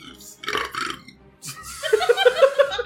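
A loud, drawn-out burp at a tabletop game session, with a rough, croaking tone, preceded by shorter guttural bursts.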